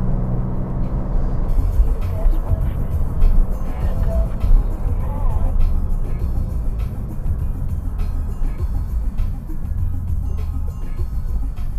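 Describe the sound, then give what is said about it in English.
Steady low road rumble and hum inside a car driving at highway speed with a high-speed vibration from one tire that has lost a balance weight. The noise holds even and dense throughout. “I seem to have a high-speed vibration on one of these tires.”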